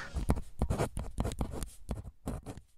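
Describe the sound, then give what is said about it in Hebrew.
Pen scratching on paper as someone finishes writing an end-of-year note: a rapid run of short scraping strokes at a steady, moderate level, with no voices. “זהו, כתבתי הכל”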